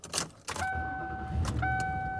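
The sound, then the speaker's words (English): A car being driven, with a steady low rumble and road noise throughout, opened by a couple of brief knocks. “And I am driving around.”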